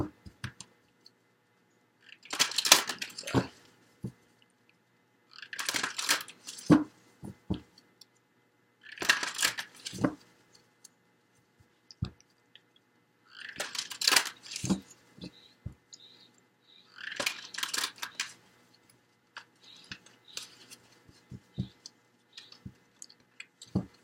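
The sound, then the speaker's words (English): Tarot cards being shuffled and drawn: several bursts of crisp riffling, rustling noise separated by short pauses, with sharp clicks as cards are set down. “So let's go ahead and get the cards drawn and get started.”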